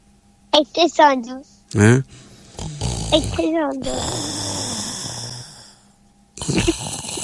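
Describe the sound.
Loud snoring in several rough, rattling bursts with snorts between them, mixed with voices talking.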